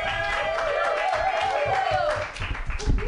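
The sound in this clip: A live comedy show audience applauds for a comedian, with steady clapping and some crowd noise running under a voice speaking over it.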